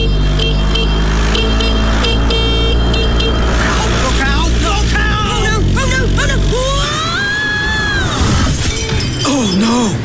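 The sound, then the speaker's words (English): Busy road traffic with car engines and a horn gives way to a loud crash and shattering clatter as a moped goes down, then excited voices are heard. “She's fallen off her moped.”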